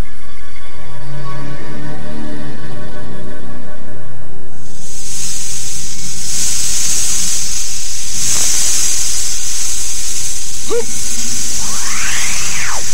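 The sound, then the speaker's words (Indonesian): A giant snake hisses in an audio drama: after a stretch of tonal, music-like sound, a steady, bright, breathy hiss sets in and runs to the end, with a few brief chirping sweeps near the close. “Siwa Agung, makhluk apakah itu? Seekor ular raksasa. Celaka! Apa yang akan dilakukan oleh ular itu?”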